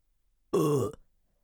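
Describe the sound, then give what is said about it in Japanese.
One loud, deep burp is let out close to the ear, a short voiced belch that stands alone in silence. “じゃあいっぱいふみふみしながら、耳元でおっきなゲップこきまくっちゃおうっと。”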